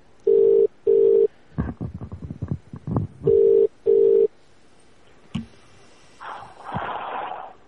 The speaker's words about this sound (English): That's ringing.